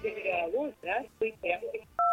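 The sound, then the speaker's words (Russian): Telephone line tone as a phone-in call is picked up: a person talks, then a loud, steady two-pitch tone cuts in at the very end. “Так, есть у нас звоночек, наверное, будем знакомиться с тем, кто у нас на линии. Поднимаю трубочку, говорю: алло, здравствуйте.”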